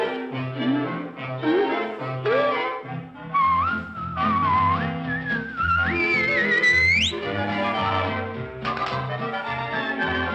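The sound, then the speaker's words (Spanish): Melodic whistling carries a tune over orchestral accompaniment in a Spanish-language 1970s children's story record, with bright sliding notes that climb steeply in a rising run toward the middle. “Dame un silbidito, dame un silbidito, y siempre tu conciencia te guiará.”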